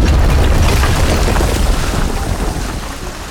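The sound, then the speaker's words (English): Explosion of a garden center inside a retail store, a loud deep rumbling roar with heavy low-end boom that sustains and slowly decays, with no voices. “Our story begins again as our intrepid retail employees watch the garden center explode in front of them.”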